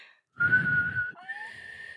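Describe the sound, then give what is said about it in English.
A person whistles a short tune: a sustained clear note over a low rumble, then a lower note that slides upward, then a higher held note, all fairly soft and without talk. “What are you whistling right now?”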